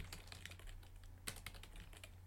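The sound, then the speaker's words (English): Faint typing on a computer keyboard as notes are entered, with many soft, irregular key clicks over a steady low hum. “I'm going to do something we never do and write that down in the doc”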